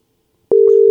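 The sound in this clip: Telephone ringing tone on an outgoing call: after half a second of silence, a single steady mid-pitched electronic tone sounds, then cuts off.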